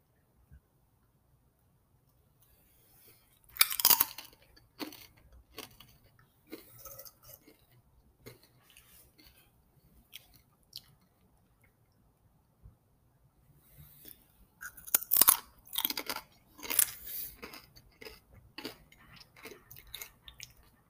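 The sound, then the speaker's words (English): A person chewing and eating food, heard as faint, clicky mouth and chewing noises in scattered short bursts, busiest in two clusters, with near silence between. “so if you hear me, like, eating in the background, that's because I am.”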